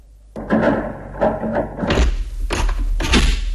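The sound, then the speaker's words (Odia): A door is closed in a house: a few dull, low thuds and bumps, with some lighter rattling before them. “Okay, ଆଚ୍ଛା ମୁଁ ଆସୁଛି, ଆପଣ କବାଟ ବନ୍ଦ କରନ୍ତୁ।”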